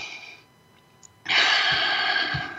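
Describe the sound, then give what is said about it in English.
A deep breath drawn in during a guided breathing exercise. After a quiet pause, a loud, breathy inhale starts abruptly and holds steady to the end. “Let's take a breath and breathe that in. All the way to your toes.”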